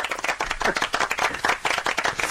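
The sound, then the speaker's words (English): Studio audience applause: many hands clapping in a dense, steady round that holds at an even, fairly loud level for the whole stretch with no voices on top. “All right, so I have to give you the round of applause that I got.”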